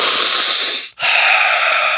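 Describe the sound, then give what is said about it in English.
A deep breath: a long, airy rush of breathing, a brief silent gap, then a second long breath of similar strength, with no talk. “We're all going to take a deep breath.”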